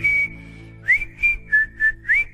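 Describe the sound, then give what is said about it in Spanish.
A person whistles a pop song tune, holding one long clear note first. After a brief pause come five short, bright notes in a bouncing rhythm, heard alone without voices. “Silbar las canciones silbadas.”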